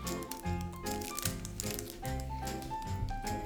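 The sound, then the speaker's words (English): Crinkling and ripping as a sealed packet is torn open by hand, a run of crisp rustles and short tearing bursts at fairly even loudness. “And so if you hold the bottom, I think you can tear it.”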